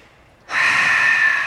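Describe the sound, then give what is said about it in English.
A person takes one deep breath: a long, loud, airy rush that begins abruptly after a brief quiet moment and holds steady for about a second, with no talking. “Please take a deep breath.”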